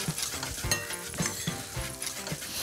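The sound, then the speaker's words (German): Paprika powder and spices sizzle softly as they toast in a pan, with a few faint stirring scrapes and light clinks of utensil on cookware; no one talks. “Rösten ist auch immer lecker, wenn der Paprika so ein bisschen anröstest.”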